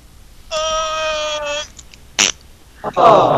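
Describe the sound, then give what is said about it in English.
A fart-like noise squeezed out of an object: a steady, buzzy, pitched tone lasting about a second, followed by a few short, sharp bursts, with a brief voice at the end. “Aw, we squeezed a fart out of it.”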